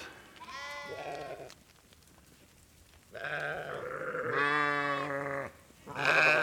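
A herd of farm animals bleats, several long, quavering, strongly voiced cries separated by short quiet gaps, the last one loud and abrupt.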